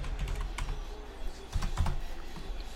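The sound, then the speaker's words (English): Soft clicks of typing on a computer keyboard as a name is entered, a quick run of faint keystrokes with small pauses between bursts. “I'm going to just type in Lamar Jackson because I think that'll get right to the point right there.”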